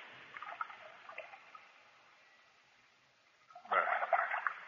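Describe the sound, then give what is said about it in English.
Water splashing as feet are washed: faint dribbling and trickling at first, then a louder, sustained burst of splashing toward the end. “You wash my feet. It's I who should wash yours.”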